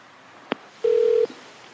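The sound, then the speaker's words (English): Telephone tones during a call transfer at a business in Waco, Texas: a sharp click, then a single steady electronic beep lasting under half a second over a quiet line. “If you know your party's extension, please dial it now, or dial 0 for the front desk. I'll transfer you now.”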